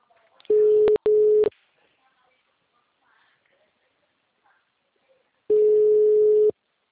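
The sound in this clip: A steady telephone line tone sounds while a call is being placed: a loud tone broken by a few clicks near the start, then near silence, then one more long tone of the same pitch.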